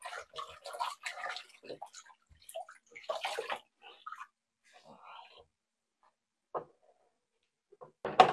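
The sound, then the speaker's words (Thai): Water splashes and sloshes as dyed cloth is rinsed by hand until the water runs clear, coming in irregular bursts separated by quiet gaps, with a voice heard softly in places. “เดี๋ยวเราไปดูสีกันล้างจนกว่าน้ำเขาจะใสเลยนะคะ”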